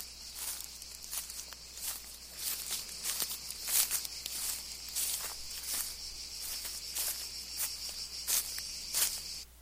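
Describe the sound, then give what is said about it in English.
Footsteps crunch through a backyard garden with a persimmon tree and dry, crunchy fallen fruit caps, many quiet irregular steps over a constant high chirping of crickets. “Oh, that's me walking through Simon's garden in his backyard.”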